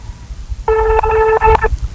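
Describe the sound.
Telephone dialing tones during a call attempt: a few short electronic beeps run together for about a second, each a steady, bright tone with clear overtones, heard alone without talk.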